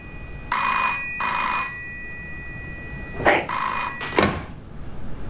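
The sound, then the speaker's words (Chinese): An office telephone rings in two pairs of bright, metallic bell bursts separated by a short pause, loud and with no talk over it. “接电话合适吗？你办公室。”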